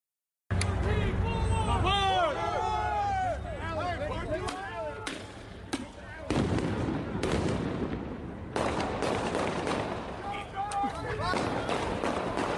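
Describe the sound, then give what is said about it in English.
Gunshots recorded on bodycam footage: several sharp, loud cracks break through a steady rush of noise, with people talking and shouting throughout. “Shots fired.”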